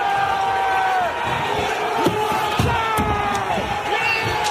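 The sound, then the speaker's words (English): Crowd of rioters attacking the U.S. Capitol on January 6, 2021, trying to stop certification of the presidential election: a loud, dense, continuous roar of many shouting voices. “That is the sound of Trump supporters attacking the U.S. Capitol on January 6, 2021, as they tried to stop the certification of that presidential election.”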